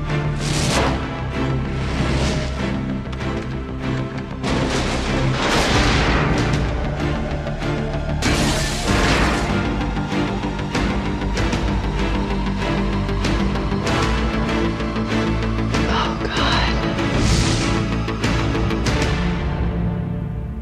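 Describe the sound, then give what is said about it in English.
Trailer audio for the 1990 film Ghost, a loud, dense and continuous mix of music and sound effects with repeated sharp bursts throughout. “That was a trailer for 1990s Ghost.”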